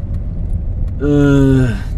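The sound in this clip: A car engine drones low while the car drives around town, a steady rumble that grows louder and fuller halfway through.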